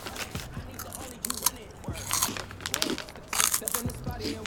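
Someone bites into a crunchy cookie and chews, with a few crisp crunches and crackles spread unevenly over the stretch, the loudest bursts near the start and end.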